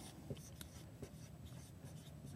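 Faint scratching of code notation being written by hand, a soft continuous scrape broken by a few sharper strokes.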